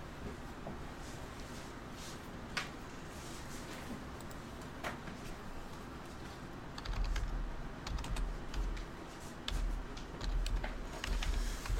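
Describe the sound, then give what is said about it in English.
Typing on a computer keyboard: many irregular, fairly quiet key clicks over steady background noise, joined by bursts of low rumble in the second half. “Just bear with me, let me type this in.”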